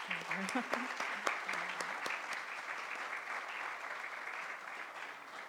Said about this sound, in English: If you all could do me a favor and join me again in another round of applause for